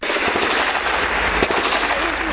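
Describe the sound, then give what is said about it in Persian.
Heavy Israeli army artillery fire and air strikes on the northern and southern Gaza Strip: a dense, loud, continuous roar of blasts and rumbling, with a few sharper cracks standing out. “حملات شدید هوایی و توپخانه ارتش اسرائیل به شمال و جنوب نوار غزه”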